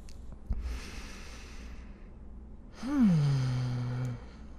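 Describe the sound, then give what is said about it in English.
Breath pushed out through the nose during a guided breathing exercise, a long airy rush of air. A softer breath comes before it, and the later exhale swells louder before it tails off. “Hold for a second. And then out through your nose.”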